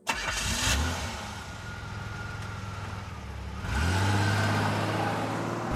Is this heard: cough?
no